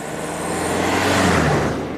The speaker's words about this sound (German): Fahrzeug 2, go! Und das ist ein Benzinauto.